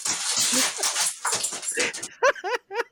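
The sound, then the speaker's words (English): Coco, a small excited dog, whimpers and squeals in the background with restless, uneven noise, then gives three sharp, high-pitched yips close together near the end. “Coco is just going crazy in the background. I love that. She just needs to let some of the wild out. Pay no attention, you know? The squeeful dog.”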